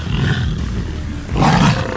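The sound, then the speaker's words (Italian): A tiger roars in two rough, low, growling bursts: a first one that tapers off, then after a short lull a second, louder roar that swells and fades. “Ma è una tigre!”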